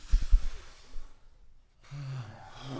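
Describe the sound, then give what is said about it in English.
A deep breath: a few soft low bumps at the start, a short quiet pause, then a rushing, breathy exhale that holds to the end. “Ready? Take a deep breath.”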